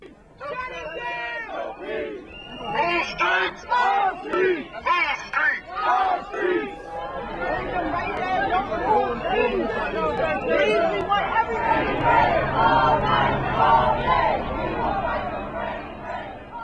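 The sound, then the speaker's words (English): A protest crowd chants in the streets of Baltimore, many voices shouting in rhythmic bursts before swelling into a dense, continuous roar of chanting and yelling. “All night, all day, we will fight for Freddie Gray was one of the chants that was heard on the streets of Baltimore yesterday.”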